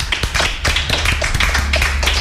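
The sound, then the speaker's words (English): A round of applause breaks out as many hands clap in quick, sharp, overlapping strikes, brisk and loud throughout with no voices above it. “Everyone give a round of applause.”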